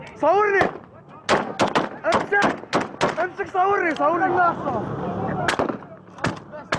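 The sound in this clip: Fighters in Syria fire repeated gunshots at a Kurdish prisoner: many sharp, loud cracks in irregular bursts, with men shouting excitedly between and over the shots.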